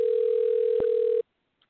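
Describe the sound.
A telephone ringback tone on an outgoing call: one steady, mid-pitched electronic ring lasting just over a second, broken by a brief click partway through, then silence.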